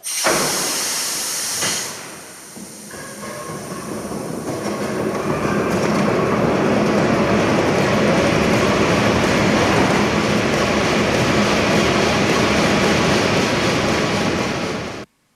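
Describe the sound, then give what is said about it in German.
Railway locomotive with a 1000 hp diesel engine: a broad rumble and hiss swell over the first seconds into a steady, loud rolling roar with clattering wheels, then stop abruptly at the end. “Der 1000 PS Dieselmotor.”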